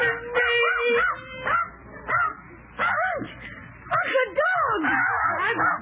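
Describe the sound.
A dog howls and whimpers in several wavering, drawn-out wails that rise and fall in pitch, with short gaps between the bursts.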